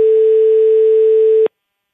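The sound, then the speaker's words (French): A telephone ringing tone plays on a live call placed in France: a single steady, loud electronic tone holds for about one and a half seconds, then cuts off into silence. “va composer en direct le numéro”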